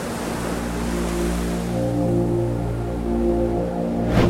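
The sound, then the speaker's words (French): Sea waves wash onto a windy beach at the foot of tall cliffs on England's south coast, a steady, unbroken rushing surf with a continuous low drone beneath it. “Le promeneur qui brave le vent sur les plages du sud de l'Angleterre, sait-il qu'au pied des immenses falaises qui tombent dans la mer, se cachent de véritables trésors?”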